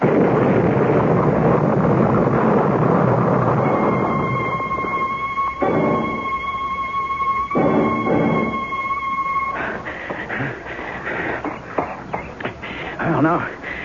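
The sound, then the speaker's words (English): A bomb blast produces a loud, broad roar that slowly decays, followed by a high ringing tone and voices speaking. “You know that bomb was meant for me.”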